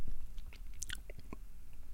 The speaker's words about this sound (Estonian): võtsin ka väikse ampsu